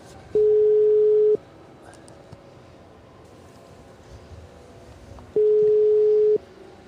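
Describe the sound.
Telephone ringback tone on an unanswered call: two identical steady, low-pitched tone bursts, each about a second long, separated by a long quiet gap with faint background hiss.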